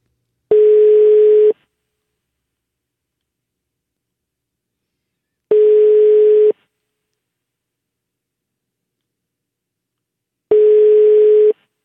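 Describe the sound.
Telephone tone while placing a call: three steady one-second beeps at a single mid pitch, about five seconds apart, with silence between them.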